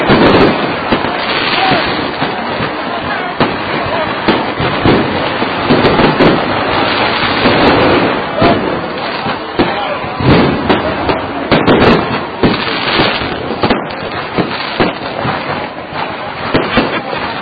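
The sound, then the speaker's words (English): Fireworks go off all around, a loud, dense barrage of crackling and popping bursts that runs without a break from start to end. “And we have fireworks going off all around us. The sky is simply lit up with all sorts of spectacular colors, and of course the ground is lit up with all sorts of sounds.”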